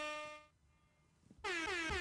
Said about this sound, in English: All you have to do is push that button a few times on the air horn and you're set.